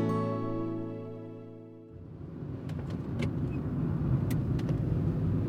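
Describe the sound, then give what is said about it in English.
A car drives along a road on the way to a nature reserve in Northern Ireland. A steady humming tone gives way to broad tyre and road rumble with a few sharp clicks, and no one speaks. “Today, I'm driving to one of my favourite nature reserves in Northern Ireland, Portmore Lough.”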